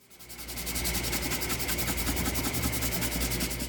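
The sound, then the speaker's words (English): A small koa hardwood ukulele bridge is sanded by hand, giving a dry, hissing rasp in many quick, even back-and-forth strokes that build from quiet and then hold steady throughout. “A bridge, a small rectangular piece of wood on the body of the instrument to which the strings are attached, is sanded by hand.”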